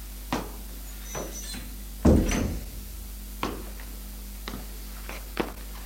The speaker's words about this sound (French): Tonton va ouvrir une petite porte vitrée.